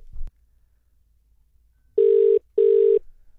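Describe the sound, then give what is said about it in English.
A telephone call being placed: a short click is followed by a pause, then two loud bursts of ringing tone in a quick double-ring pattern with a slight gap between them. “Let's dial it. Let's give it a call.”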